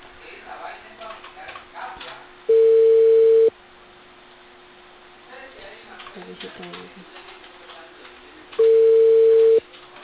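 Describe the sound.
A ringback tone plays while a call is placed: two steady, mid-pitched beeps, each about a second long and roughly six seconds apart, with faint background noise and murmur between them.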